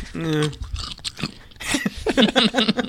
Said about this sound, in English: So, did you hear that crunch or that peanut that got broken? So that was good. I'm eating a yellow one.